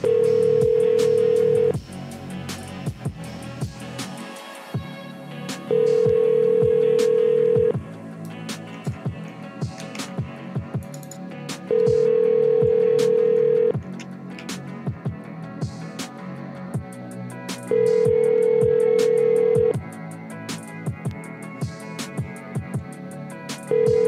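An outgoing phone call rings through on the line: a steady mid-pitched tone sounds for about two seconds, then pauses for about four, repeating in a regular pattern four times with a fifth starting at the end.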